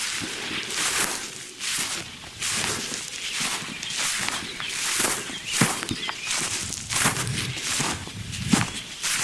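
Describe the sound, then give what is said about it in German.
Footsteps crunch along a path on a morning walk up toward a rest spot, a long run of even, regular steps at a steady walking pace with no talk. “wenn die gedämpft ist und ihr die Schritte genießen könnt.”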